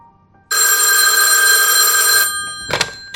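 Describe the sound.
A telephone bell rings in one long, loud, sustained burst, alone with no voices, then cuts off into near silence before a brief faint noise.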